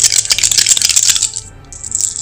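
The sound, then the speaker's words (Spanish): Dice rattling as they are thrown for a heroes' attack on a warg in a tabletop game. A rapid clatter for about a second and a half, then a quieter stretch and a brief light rattle near the end. “voy a utilizar los mismos dados porque me dieron suerte, así que bueno, vamos a tirar.”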